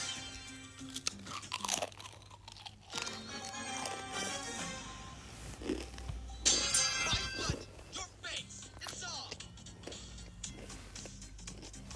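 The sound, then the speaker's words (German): Someone bites and chews a crisp chip, producing many loud crunches in an uneven run. The crunches sit over a low, steady background hum with other faint noises, and the whole clip is quiet. “Ich muss noch ein Chip essen.”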